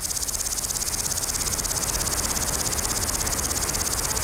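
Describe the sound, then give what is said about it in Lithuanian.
Grasshoppers chirp in hot, calm weather, making a dense, shrill, continuous trill. It has a rapid, even pulse and holds a steady loudness throughout. “Taip, iš tikro, dabar žiogų metas. Tai ypatingi vabzdžiai, jiems reikia karščio, o mums ramaus oro, kad girdėtume jų treles.”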